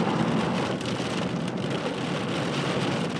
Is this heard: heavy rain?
yes

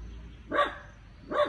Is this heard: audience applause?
no

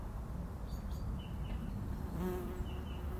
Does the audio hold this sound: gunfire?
no

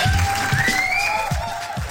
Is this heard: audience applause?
yes

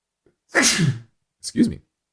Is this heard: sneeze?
yes

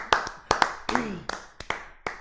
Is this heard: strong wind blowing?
no

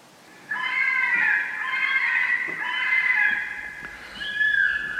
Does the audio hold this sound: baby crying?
no

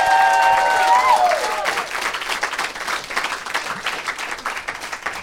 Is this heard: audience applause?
yes

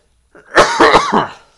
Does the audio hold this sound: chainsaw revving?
no

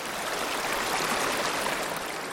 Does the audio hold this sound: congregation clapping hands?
no

